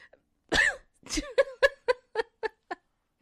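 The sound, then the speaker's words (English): A voice mimics a cough, with two heavier bursts followed by a quickening string of shorter, softer ones that fade out, heard alone. “I do have a girlfriend that likes to cough on me every time she sees me. And she saw me today, and she went like this.”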